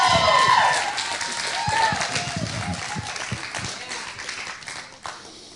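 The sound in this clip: A standing audience applauds as a couple comes up to the platform, with dense, steady clapping that is loudest at first and then gradually fades.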